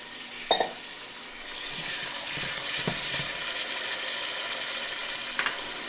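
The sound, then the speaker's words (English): Chopped garlic and potatoes fry with toasted cumin seeds for khichdi, giving a steady, even sizzling hiss throughout, with a couple of brief metallic clinks near the start and again near the end. “Now the cumin seeds are nicely toasted. You can smell them. Putting the uh, chopped garlic in, and the potatoes are going in.”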